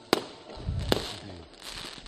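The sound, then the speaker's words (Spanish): Firecrackers and fireworks set off by football fans greeting a team's coaches: two sharp bangs about a second apart over a steady background din. “cánticos contra el Real Madrid, bengalas rojas, cánticos de todo tipo, bengalas, petardos, pirotecnia.”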